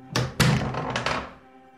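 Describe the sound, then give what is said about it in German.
A door being opened, heard as a few dull wooden thunks and knocks. Two strong hits come first, then lighter clunks that fade into quiet. “Öffnet die Tür!”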